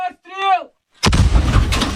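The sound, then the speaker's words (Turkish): A howitzer firing as Ukrainian artillery shells Russian positions in the Donetsk region: one sharp, heavy blast that rolls into a long, loud rumbling roar, with a brief voice just before it. “Cephede ise Ukraynalı topçular Donetsk bölgesindeki Rus mevzilerini obüslerle vurdu.”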